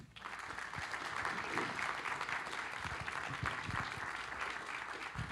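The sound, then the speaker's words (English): Applause from an audience welcoming a pair of speakers, a couple, is faint but continuous, an even bed of many hands clapping with no break. “So would you join with me as we welcome Troy and Melissa Cleland?”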